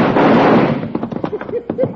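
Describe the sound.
Gunfire in a western drama scene, a loud burst at the start that fades over about a second, followed by voices.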